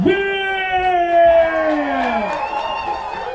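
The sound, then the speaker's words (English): Festival crowd at Seattle Hemp Fest 2018 cheering, with loud whoops and yells whose pitch slides downward over a short, steady burst of crowd noise. “But I want you to put your hands together and give a big hip fest round of applause. Get on your feet. Make a lot of noise”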